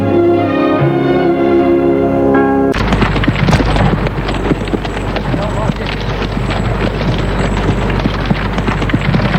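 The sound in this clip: A horse-drawn cart on the road: loud, steady clip-clop of hooves over a broad rumbling wheel noise, beginning abruptly after a short tonal passage and continuing without a break.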